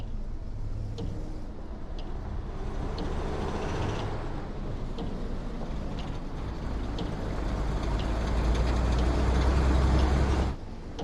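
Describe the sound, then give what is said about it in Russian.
A lorry carrying armed soldiers in gas masks drives up to a gate, its low engine rumble steady and gradually growing louder before cutting off abruptly near the end. “К воротам подъезжает грузовой автомобиль с немцами, в противогазах и с оружием.”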